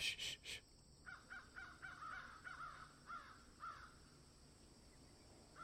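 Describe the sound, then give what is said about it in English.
Crows cawing in a faint, repeated series of harsh calls at a fairly even pace, with a few brief bursts before them. The calls stop for the last couple of seconds. “Can we turn the crows up a bit? They're all by the way. There they are. Listen.”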